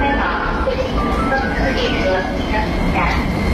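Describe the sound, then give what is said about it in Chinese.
Subway train arriving at a station platform, heard as a steady, loud rumble of rail noise and hiss that continues throughout without a clear break. “你看地铁来了，咱们一起排队上车喽。”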